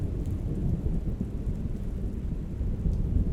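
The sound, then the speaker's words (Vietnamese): Thunder strikes hard during rain, a deep continuous rumble beneath a steady, dense hiss of falling rain that stays loud throughout. “Sấm sét đánh xuống một cái thật mạnh”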